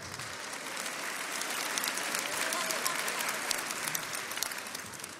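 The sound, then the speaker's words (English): Audience applause, dense and steady clapping sustained for about five seconds with a faint murmur of voices underneath. “and they're clapping for that today? That's where we are?”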